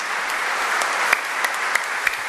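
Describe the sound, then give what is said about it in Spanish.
An audience in church applauds the Blessed Sacrament with dense, steady clapping, and a few sharper individual claps stand out from the wash. “Un aplauso al Señor, verdaderamente presente en el Santísimo Sacramento.”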